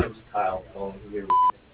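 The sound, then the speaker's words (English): A single answering machine beep, a short, steady, loud tone of about a fifth of a second, follows the end of a recorded voice greeting that asks callers to leave a message. “After the beep, please leave your name, phone number, and a brief message, and we will get back to you as soon as possible.”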